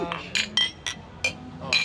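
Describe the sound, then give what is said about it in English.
Glasses clinking together in a toast: several bright, ringing clinks in irregular succession, fairly faint, over a low background murmur. “That should be the opening of your podcast every time. Just multiple clinks. All the clinks.”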